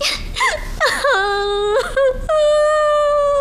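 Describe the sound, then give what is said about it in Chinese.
A woman crying: a few broken, whimpering sobs give way to long, sustained wailing tones, loud and raw with no other sound. “你哭什么呀？啊？哎，你别哭啊，有话说呀。不许哭。”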